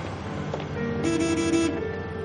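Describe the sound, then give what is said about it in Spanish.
A car horn sounds from a car parked in front of a night school: one brief, steady blare of about half a second over a low background hum. “Caril y toca el claxon para llamar su atención”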